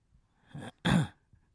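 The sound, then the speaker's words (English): A little human cough, a faint throaty catch followed by one stronger, short cough burst, alone and quiet. “A little cough.”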